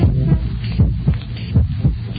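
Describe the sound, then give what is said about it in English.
Heartbeats thump in low, muffled lub-dub pairs at a steady, even rhythm, with a faint hum underneath and no talk. “Heartbeats. Sorry about that. Heartbeats.”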